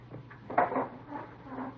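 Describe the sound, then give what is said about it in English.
A door is pushed shut, giving one firm, woody thud followed by a few softer knocks and rattles as it settles, with no voices. “Close the door, huh?”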